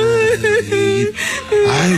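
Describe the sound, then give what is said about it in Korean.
A person cries, a wavering, sobbing voice with broken and uneven pitch, whimpering in short swells across two seconds. “야 울지 마라. 다 해결됐는데 뭐하러 울어.”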